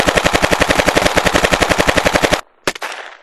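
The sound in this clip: Machine gun fire in a long, rapid and evenly spaced burst of many loud shots, then a short silence and a couple of final cracks that ring out and fade.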